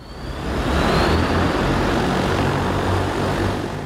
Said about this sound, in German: Es ist der ganze Stolz des chinesischen Unternehmens Ehang, das eigene Flugtaxi.